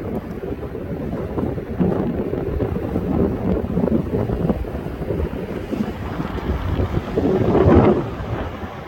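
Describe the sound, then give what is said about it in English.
Strong wind blows across an ocean beach on the Oregon coast, a continuous low, rumbling roar that buffets the microphone and swells louder near the end, with no voices. “It's funny, it's not that windy inland right now, but on the beaches it is.”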